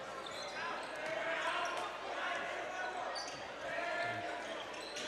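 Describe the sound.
A basketball is dribbled on the court during a boys' high school game, its bounces partly buried under steady crowd murmur while a commentator talks.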